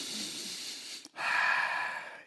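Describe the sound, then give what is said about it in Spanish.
A slow, deep breath taken by a speaker showing how to calm down: two long airy breath sounds split by a brief pause, the second louder and fuller. “Respiro así como esto”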